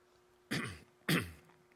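Someone with something caught in the throat clears it twice in harsh, rasping bursts, evenly spaced and fairly loud against near silence.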